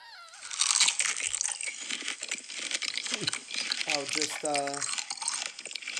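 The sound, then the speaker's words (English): Crunchy chewing of big, juicy organic strawberries in an ASMR video, with close, wet bites and crackling mouth sounds running continuously at moderate loudness, and a voice breaking in briefly partway through. “She's eating big and juicy organic strawberries.”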